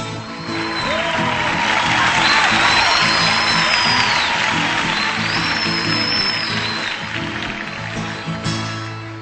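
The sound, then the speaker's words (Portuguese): Crowd cheering and whooping with scattered shrill whistles, honouring a coffee farmer. The broad, noisy roar holds steady for several seconds over a low, sustained hum. “Foi uma salva de palmas, gritaram vivas pro fazendeiro que tem 1 milhão de pé de café.”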